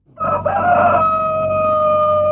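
A rooster crows once in a single long, loud call, starting with a rough, brassy burst and then settling into a sustained, steady, high-pitched tone that holds to the end.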